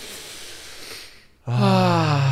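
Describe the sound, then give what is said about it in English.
A long, deep breath taken together, heard as a soft, airy rush of breathing that fades into a brief hush before a sustained sung voice enters loudly. “So let's try this. Take a deep breath together.”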